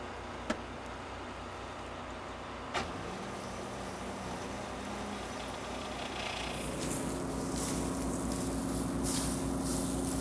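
A combine harvester's mechanism runs in reverse during repair work. A steady low mechanical drone carries two brief sharp clicks early on, then its tone shifts and grows slightly louder and brighter over the last few seconds.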